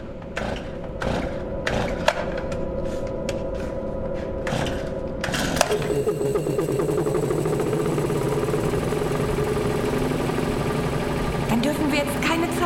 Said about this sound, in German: So, dann werfe ich mal wieder den Generator an.